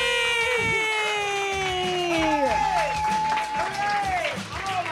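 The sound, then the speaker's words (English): A live audience claps and cheers steadily as a comedian is introduced, with whooping voices sliding downward in pitch over dense applause. “Does everybody want to give a big clap for Debra DiGiovanni?”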